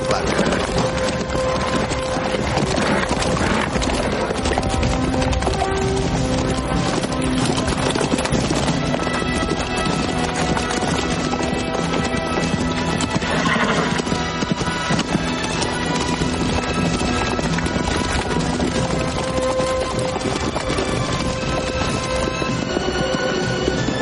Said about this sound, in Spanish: los caballeros cabalgan tras el rey Ginebra de dos en dos. Al final, Lanzarote va en su caballo con el semblante serio